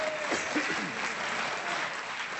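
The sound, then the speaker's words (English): Applause from an audience at a comedy quiz show, a dense, steady wash of clapping that runs through the whole clip at an even level without pausing. “I thought I'd get a cheap round of applause for that and some kind of pity and laughter.”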